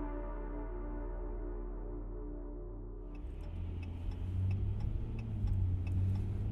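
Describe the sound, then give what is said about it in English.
A car driving down a street lined with orchards on the outskirts of Emmett: a steady low engine hum that turns louder and rougher midway, with added road and rattling noise. “We're on the outskirts of Emmett, driving down a street with orchards on every side.”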